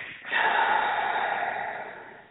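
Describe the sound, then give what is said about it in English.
A single deep, breathy rush of air that starts abruptly, holds steady for a moment, then slowly fades over about two seconds, heard alone. “take a nice deep breath in, and I want you to hold it, and then I want you to exhale.”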